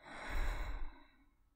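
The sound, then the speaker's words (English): A slow breath drawn in through the nose and let out through the mouth during a calming breathing exercise, a soft airy rush that swells and then fades away, with no talk. “In through your nose, and exhale from your mouth.”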